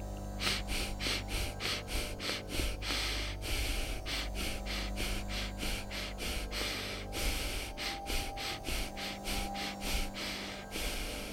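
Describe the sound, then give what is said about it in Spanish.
Rhythmic yogic breathing in a repeating cycle of short, quick breaths broken by a longer inhale and exhale, the breaths heard as soft breathy rushes over a steady low drone. “es una respiración que consta de cuatro inhalaciones y exhalaciones cortas y una quinta inhalación y exhalación más larga, generando un ciclo que puede realizarse así.”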